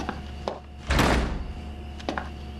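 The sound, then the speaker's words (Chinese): A door being closed with one solid, loud thunk, with fainter clicks just before and after. “门关上。 关门。”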